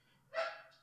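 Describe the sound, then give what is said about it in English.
A dog gives a single short bark, quite faint, over a low steady hum. “That's the dog.”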